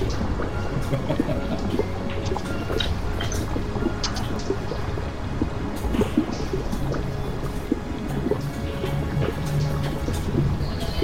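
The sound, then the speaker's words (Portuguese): Liquids running, dripping and bubbling in a gory fantasy dungeon scene, a continuous wet trickle scattered with many small drips and soft bubbling pops, steady in level throughout, with no voices. “O tempo todo vocês ouvem um som de líquidos escorrendo, líquidos pingando, gotejando e borbulhando.”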